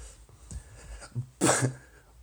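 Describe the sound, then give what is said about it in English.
Breath blown into a cell phone microphone, a short, breathy, rushing puff that stands out after a few faint, softer sounds. “But you blew with your breath.”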